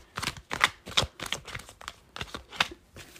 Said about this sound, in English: I, like, flipped over a big chunk of cards and saw the Lovers, but because that card didn't fall out individually... I'm not taking it. Okay, a card just fell out.